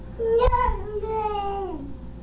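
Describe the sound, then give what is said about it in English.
A child in a tantrum gives one short, high whining cry that holds steady, then drops in pitch at the end, with a sharp burst near the start. “Was that a tantrum?”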